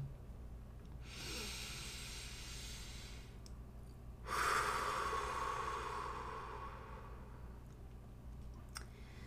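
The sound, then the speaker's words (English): A person takes a deep, slow breath: two long, soft, airy breath sounds, the second louder and fading gradually. The breathing is quiet and heard alone, with no talking. “So I'm just going to take a breath over here. And I'm inviting you, if you feel so called or aligned, to also just take a breath with me.”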